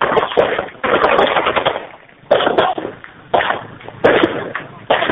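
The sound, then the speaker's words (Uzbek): Gunfire at people, heard over a phone call: several loud, sustained bursts of rapid automatic fire, separated by short gaps, with a dense crackling texture. “Eshitilyapti hammasi. Ya odamlarni otyapti mana shuna qilib.”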